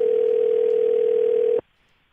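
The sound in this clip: A single ring tone sounds on a telephone call waiting to go to voicemail. The steady hum-like tone holds for about a second and a half, then cuts off abruptly into near silence.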